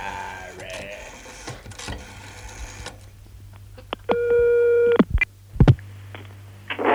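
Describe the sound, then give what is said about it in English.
A Dutch telephone number is dialed: a run of scattered clicks, then a steady tone lasting about a second, followed by a couple of short tonal bursts. “we've recently received from our Dutch agent a Dutch telephone number, which is the 7-Up Pop News. So, just as a treat, we're now going to dial it and see what comes out.”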